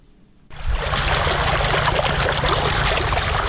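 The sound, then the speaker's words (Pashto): Water from a deep well, raised by solar-powered pumping machines on farmland in Sayedabad district, Maidan Wardak, rushes out abruptly and continues as a dense, steady roar of flowing water. “دا د میدان وردګ ولایت په سید آباد ولسوالۍ کې د ژورو څاګانو اوبه دي چې بزګران یې د لمریزې هندارو او ماشینونو په مرسته راپورته کوي.”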